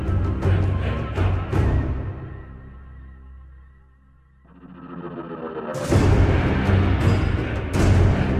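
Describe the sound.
Soundtrack music builds like a dragon inhaling and then breathing fire: dense, low-heavy sound thins to a quiet sustained tone, swells back up, then bursts into a loud, full blast that holds to the end.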